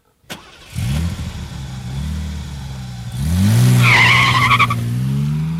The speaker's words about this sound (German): Ich fuhr das Auto den gewundenen Feldweg entlang.